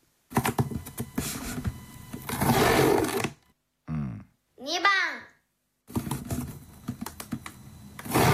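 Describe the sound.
Masking tape is pulled off the roll in two long, dense crackling rips, with people talking briefly in the pause between them.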